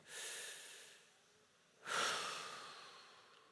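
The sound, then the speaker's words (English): Deep breathing from a standing audience: two long, airy breath sounds separated by a brief lull, the second louder and longer, with no talking. “Everybody stand and now just take a deep breath.”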